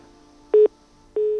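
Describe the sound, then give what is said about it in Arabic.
A telephone line tone sounds as a call drops: two steady, mid-pitched electronic beeps separated by a short gap, with the second one held to the end over a faint low hum. “انقطع الاتصال للأسف”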